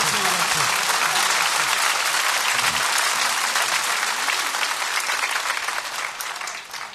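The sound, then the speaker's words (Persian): Loud, dense applause from an audience at a religious gathering for Imam Hasan, a steady wash of many hands clapping together that stays even for several seconds and eases slightly at the end. “میشه دستاتو بیاری بالا یه جور دست بزنی برسه مدینه”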